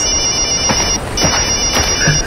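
A mobile phone ringtone plays as a steady, bright electronic tone that repeats throughout, with a few short soft knocks underneath.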